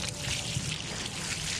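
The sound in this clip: Water poured over a person's head during a torture demonstration, heard as a continuous rushing, splashing pour at a steady level, without breaks or voices.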